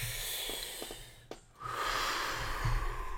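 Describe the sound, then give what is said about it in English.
A slow, deep breath is a soft, airy hiss that swells after a short pause and holds for more than a second. It is faint and steady, with a few small clicks before it. “Take a deep breath.”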